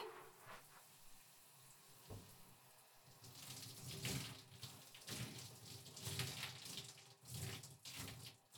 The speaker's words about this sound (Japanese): じゃあ流しますね。